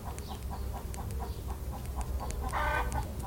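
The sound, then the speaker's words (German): Rooster sounds from a colorful farmyard cock: a steady run of short, evenly spaced clucking ticks over a low background hum, with a louder, brief cry breaking in near the end. “Hannibal, der bunte Hahn, pirscht sich auf leisen Sohlen an. Er lächelt und kräht entzückt.”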